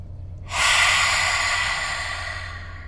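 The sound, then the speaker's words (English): A deep breath is exhaled through an open mouth: one long, airy exhale that begins abruptly, holds steady and slowly fades toward the end, heard alone. “Find your breath, take a deep inhalation, open your mouth and release.”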